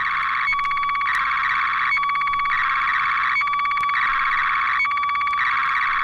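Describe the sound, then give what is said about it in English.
A shortwave slow scan television signal builds up a still picture as a steady, shrill electronic warbling tone. Short regular blips break into it at even intervals, repeating many times at a constant loudness. “Many amateurs communicate by RTTY and also by using slow scan television, which is a system of transmitting still television pictures by shortwave. This is the sound of one of those pictures building up.”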